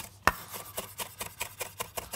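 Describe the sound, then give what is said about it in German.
A knife slicing fresh ginger into fine strips, producing many quick, faint, evenly spaced taps and scrapes against the cutting surface. “Den werde ich dann einfach nur grob in feine Stücke schneiden. Feine Streifen.”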